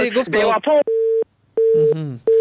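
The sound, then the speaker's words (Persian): A telephone busy tone sounds after a caller's call has dropped: steady mid-pitched beeps in about three even bursts separated by short silences. Brief talk comes before the first beep and briefly overlaps the second. “متاسفانه تماسشان باز قطع شد.”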